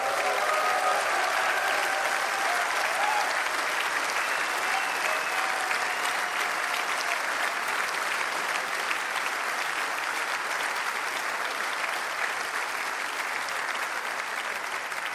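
Audience applause at the final evening of a four-day festival in Saalfelden. Dense, even clapping holds steady and loud from start to finish with no talk.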